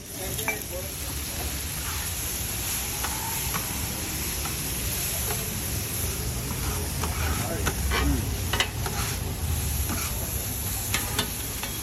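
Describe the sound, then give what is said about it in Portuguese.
Metallic clatter of street chefs cooking kottu roti in Sri Lanka: many irregular sharp clanks ring out over a steady sizzling hiss that runs throughout. “É nesse momento que surge um som familiar. O som metálico dos chefes de cozinha a preparar um dos pratos mais amados e emblemáticos deste país.”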